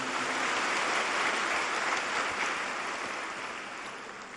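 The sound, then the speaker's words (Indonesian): Applause from an audience at a spiritual gathering in Malang, a dense, even hiss of many hands clapping at once, holding steady before slowly tapering off toward the end. “Sekali lagi kita berikan aplaus buat beliau berdua.”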